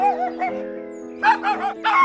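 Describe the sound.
A dog gives a few short, whining yips and whimpers in separate bursts of moderate loudness, with brief quieter gaps between them.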